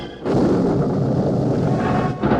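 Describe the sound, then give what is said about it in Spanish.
Thunder follows a lightning flash as a loud, deep, continuous rumble that holds steady for about two seconds, briefly dips, then swells again. No voices. “Espere un poco, cuando haya la luz de un relámpago.”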